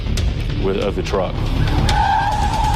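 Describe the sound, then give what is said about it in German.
Car tyres squealing in a loud skid as a getaway car with a shot-out right rear tyre careens toward an office building. The screech is steady and high, over a constant rumble. “Das Fahrzeug kracht in ein Bürogebäude.”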